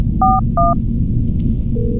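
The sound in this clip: Two telephone keypad tones sound in quick succession as a number is dialed, then a steady low tone begins near the end, all over a constant low hum.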